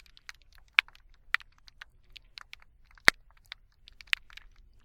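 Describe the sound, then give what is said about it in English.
Thousands of snapping pistol shrimp, recorded underwater with a hydrophone off Sanibel Island, make a dense crackle of many sharp, irregular clicks. A few louder snaps stand out from the steady popping, with no voices. “What you're listening to is shrimp. Thousands of them. But not just any shrimp. These are pistol shrimp”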